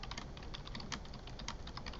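Typing on a computer keyboard while a search query is entered: a quick, steady run of many light, clicky keystrokes, fairly faint, with no voices.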